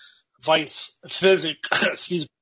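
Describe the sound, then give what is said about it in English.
Throat clearing from a throat tickle comes in three loud, rasping, partly voiced bursts separated by short pauses, with no other sound between them. “Excuse me, I got a throat tickle.”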